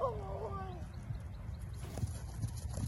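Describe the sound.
A horse trotting during a riding lesson, its hooves making a steady, rhythmic clip-clop on the ground beneath a low, continuous rumble.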